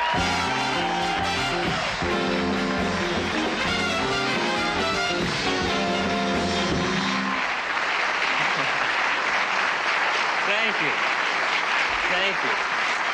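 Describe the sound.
A studio audience applauds to welcome comedian Garry Shandling on The Tonight Show. A band plays over the first half, then steady, dense clapping carries on alone to the end.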